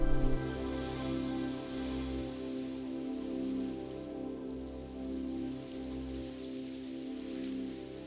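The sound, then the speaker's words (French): Rain falling onto a surface in a steady, even hiss of many drops. It holds at a constant level throughout with no other sound. “Regardez, il pleut.”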